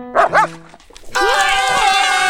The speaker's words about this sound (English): Hey, puppy, get back here!